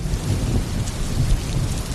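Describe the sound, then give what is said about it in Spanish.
Thunderstorm with heavy rain and low rumbling thunder, a dense, steady wash of rainfall over a deep continuous roll that stays loud for the whole stretch, with no voices. “Esas tormentas donde hay truenos, hay rayos, hay centellas, estas.”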